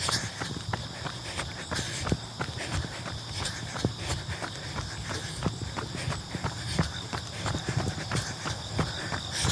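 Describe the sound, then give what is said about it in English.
Running footsteps at a fast cadence during a group running workout interval: a steady, rapid stream of many rhythmic footfalls over a constant background hiss, with no talking. “you're not trying to take big steps. It's called stride. I know that's a bit confusing. You're just trying to take more steps. Increase your cadence and that will increase your speed.”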